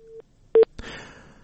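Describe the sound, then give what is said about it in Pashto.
Telephone tones on a call that gets cut off: a short steady tone, then two brief, louder beeps, followed by a burst of rough line noise. “تلیفونی تماس لکه چی لفرشته مرسل سر پریسته ویده”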